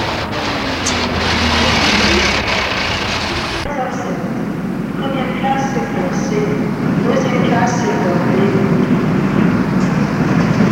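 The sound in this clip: Train station at two in the morning, filled with a steady, loud rumble of trains and a wash of indistinct voices. The low roar shifts in character partway through, and faint higher tones ring over the continuous noise.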